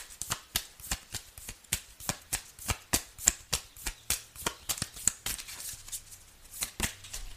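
Oracle cards being shuffled and dealt make many crisp, rapid snaps and flicks in a steady, fast rhythm, each a sharp bright transient with a short papery tail, fairly quiet and heard alone without talk.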